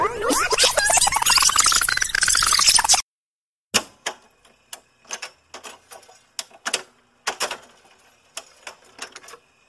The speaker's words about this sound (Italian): Direi di riavvolgere il nastro e tornare agli anni Ottanta. Facciamo subito, prendo la mia matitina e riavvolgo il nastro.